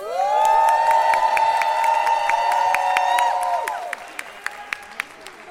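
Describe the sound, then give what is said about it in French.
A crowd cheers for the referees on the track. A loud, sustained collective whoop holds steady for a few seconds, then fades out, leaving scattered handclaps. “Est-ce qu'on pourrait avoir un peu de bruit pour les référés qui sont sur le track ?”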